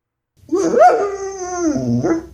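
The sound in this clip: A dog whines pitifully after being sprayed. It is a single drawn-out, tonal whimper that rises slightly, then slowly sags in pitch, then ends with a brief lift. The whine sounds alone and fairly loud.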